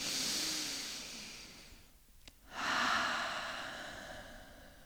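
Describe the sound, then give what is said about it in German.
Slow breathing in and out during a guided meditation: two long, airy, hissing breaths separated by a brief quiet pause, soft and steady with no talk. “Atme ein und atme aus. Atme ein.”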